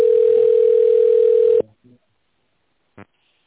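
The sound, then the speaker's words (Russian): A telephone line tone sounds while the call connects to an operator: a single steady, flat beep of about a second and a half cuts off abruptly, followed by silence and a couple of faint clicks. “Для соединения с оператором оставайтесь на линии. Соединяю с оператором.”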